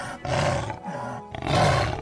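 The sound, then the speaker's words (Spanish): A jaguar lets out a fierce, savage roar: loud, rough and sustained, swelling in a few heavy surges with a growling rasp and no other voices. “el jaguar, con toda fiereza, lanzó un rugido salvaje”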